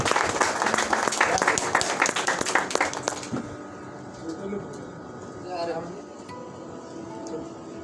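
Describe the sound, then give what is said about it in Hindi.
Audience applause welcoming a guest: loud, dense clapping for about three seconds that cuts off abruptly, leaving only faint, scattered background sounds. “चल जोरदार तालियां।”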